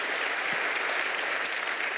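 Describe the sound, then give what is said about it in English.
At a church service, an audience gives a round of applause as performers leave the stage, a loud, uniform wash of many hands clapping that carries on without a break. “But how about one final round of applause for these guys as they head off the stage.”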